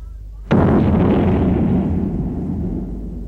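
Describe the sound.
A single cannon shot fired by a crew on command, a sudden loud blast that rolls into a long, heavy rumbling decay lasting several seconds.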